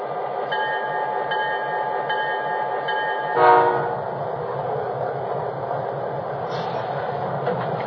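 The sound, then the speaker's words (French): A Canadian National passenger express from Halifax rolls into Truro station on track 1, its steady rail rumble carrying sustained horn-like tones, with a brief louder burst near the middle. “Le train numéro 3 du Canadien National, l'Express Maritime, en provenance de Halifax, entre en gare sur la voie 1.”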